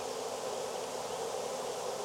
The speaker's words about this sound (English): Man, there's a lot of bees in here.